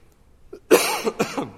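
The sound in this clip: A man coughs from the pulpit during a sermon, a short, loud burst of a few rough, harsh coughs in quick succession after a faint breath, with no talk over them.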